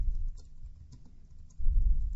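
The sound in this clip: Typing on a computer keyboard while entering a web link: a few light, irregular key clicks over a low background rumble.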